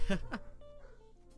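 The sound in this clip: Dogs bark twice in quick succession at the start, short and sharp, then give way to a quieter low hum.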